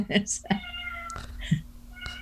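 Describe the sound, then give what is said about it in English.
Pet cat meowing, giving a few vocal meows mixed in with people talking. “Oh, wow. It appears we are not only joined by the mystery guest, but a feline companion. Yeah, of said mystery guest. Yeah, that's Tiger Lily.”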